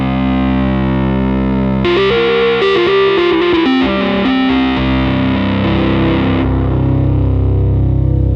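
Rhodes electric piano played through two stacked distortion pedals blended in parallel at high gain, giving a loud, fuzzy, saturated tone. Sustained chords frame a busier run of notes in the middle before settling into a held, ringing chord.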